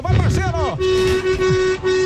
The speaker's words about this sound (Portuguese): Bora de buzinaço.